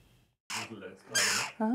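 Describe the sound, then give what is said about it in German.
Hungry jackdaw chicks calling loudly, a few harsh, raspy, insistent squawks in quick succession, the last one sharper and more tonal. “Die Dohlenkinder machen ganz schön Rabatz. Sie haben Hunger, jede Menge Hunger.”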